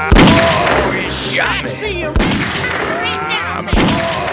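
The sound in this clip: Three gunshots ring out in the video game Grizzly Gulch. Each is a sharp, loud crack followed by a ringing decay, and they are spaced a second or two apart.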